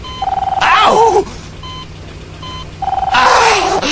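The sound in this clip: Telephone dialing tones as a call is placed: two bursts of rapid, pulsing beeps on a steady mid-pitched tone, separated by a quieter gap.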